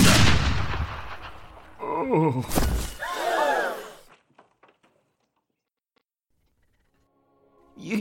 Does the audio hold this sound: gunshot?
yes

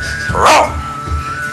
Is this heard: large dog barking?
yes

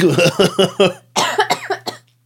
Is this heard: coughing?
yes

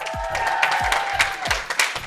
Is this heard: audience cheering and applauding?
yes

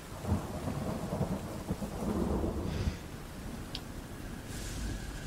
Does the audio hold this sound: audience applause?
no

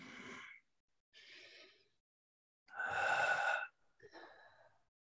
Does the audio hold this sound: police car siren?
no

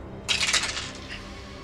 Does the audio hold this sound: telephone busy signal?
no

